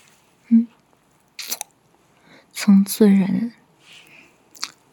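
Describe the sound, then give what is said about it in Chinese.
Wet mouth sounds of soft chewing, like eating soft tofu: a few brief squishy smacks and slurps separated by quiet gaps, fairly faint. “嫩嫩的，我好像在吃一块嫩豆腐啊。”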